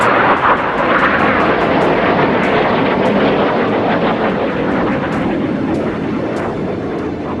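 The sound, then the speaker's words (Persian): Loud, continuous roar of F-16 fighter jets flying low over Ankara, a dense steady rumble filling the whole clip without a break. “جنگنده‌های F-16 در کنترل کودتاچیان برای ایجاد رعب و وحشت در میان مردم، پروازهای ارتفاع پایین را بر فراز آنکارا آغاز کرد.”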